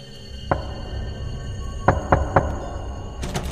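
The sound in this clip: Knocking on the wooden door of a house at night: sharp, hard raps in uneven clusters, a lone knock followed by a quick run of three, then a few more near the end, over a steady low hum.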